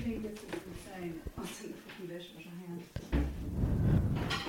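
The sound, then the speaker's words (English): A dishwasher door opening in a kitchen gives a sudden clunk, then a sustained rushing, rattling noise that runs to the end, after a stretch of people talking. “That's the sound of the dishwasher opening real life.”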